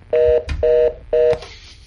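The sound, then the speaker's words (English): Telephone dialing tones on a faulty phone line: three steady touch-tone beeps of equal length, with short clicks in the gaps between them. “there's something wrong with their phone lines. Really? Is that RT, hello? It just keeps ringing. Seems to be something wrong with it.”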